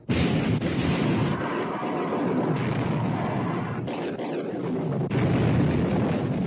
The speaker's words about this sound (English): All turrets ready to open fire, sir. Open fire! Fire! Fire!